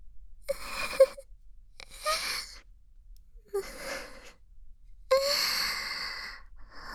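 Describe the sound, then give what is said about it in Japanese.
A woman crying, with a few breathy, wavering sobs and moans separated by short pauses, fairly soft and without talk. “こんなバカな私を幸せにするから泣いちゃったじゃない。”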